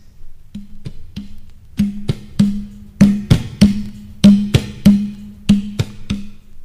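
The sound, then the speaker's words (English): A duf frame drum, a large tambourine without cymbals, struck in a loose rhythm. Many resonant low booms mix with sharp, dry slaps that grow louder and denser partway through, with no jingles. “I started with the duf. It is also a mazhar, but without the cymbals. It sounds like this.”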